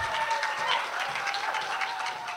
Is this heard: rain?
no